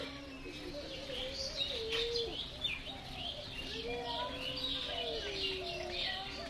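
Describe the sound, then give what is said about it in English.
Birds call by a lake reached through a small red sandstone entrance, with low, sliding dove-like coos and scattered higher chirps over a continuous soft background. “And it's just like here, all you can hear is these birds.”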